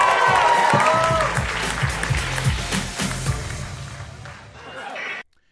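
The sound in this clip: A comedy club audience cheers and applauds in a dense, loud roar of clapping and shouts that holds steady, swells near the end, then cuts off abruptly.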